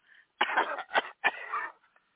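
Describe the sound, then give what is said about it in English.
A woman coughs over a phone line: three coughs, a longer harsh one, then a short one, then another drawn-out rasping cough, with thin, band-limited phone quality. “before we get off the phone, cough a little bit.”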